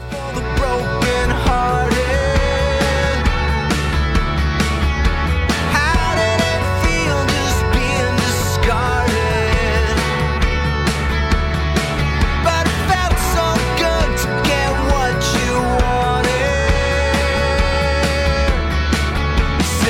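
A song plays without a break for the full stretch, a loud, dense, steady musical mix with no talking over it.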